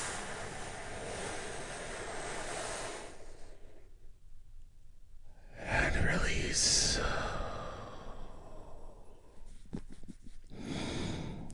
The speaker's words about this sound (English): Take a big, deep, healing breath with me right now.